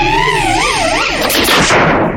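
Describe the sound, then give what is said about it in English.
Freeze Ray, an ice-type attack in a turn-based monster battle video game, as a loud synthetic effect: warbling, wavering electronic tones that give way to crackling bursts of hissing noise. “Choose a move. Freeze ray. Ice. The attack.”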